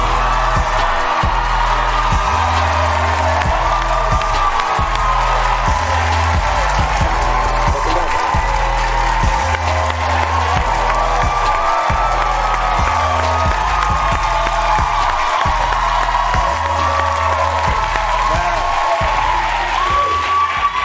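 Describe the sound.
Studio audience applauding and cheering as a talk-show guest walks out: dense, steady clapping mixed with whoops that fills the whole clip over a rhythmic low thumping beat.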